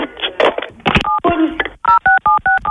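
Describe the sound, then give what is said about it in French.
Telephone keypad tones as a woman dials the police. Talk comes first, then a rapid run of short, steady, dual-pitched beeps, each tone separated by a brief gap. “Elle croit qu'elle a raccroché, elle appelle la police.”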